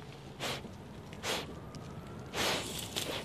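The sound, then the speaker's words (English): Dogs snort to clear their noses while searching for rats, a few short breathy bursts spaced out over a low background hiss. “So they'll dig, they'll find a hole. You'll hear them snort when they're blowing they're clearing their noses so that their noses work.”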